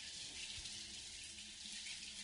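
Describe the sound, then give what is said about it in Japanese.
Hot water running from a tap in a soft, continuous hiss that stays even throughout without breaks. “お湯が流れる。”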